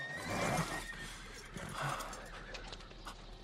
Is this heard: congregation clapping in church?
no